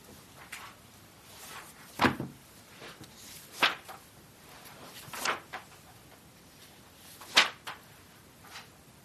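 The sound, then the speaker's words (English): Handling and opening of a Shulchan Aruch book: a few soft, papery thumps and rustles arrive as short bursts separated by quiet gaps, with no talking. “So what does the Shulchan Aruch say? Let's open up the Shulchan Aruch, see what it says.”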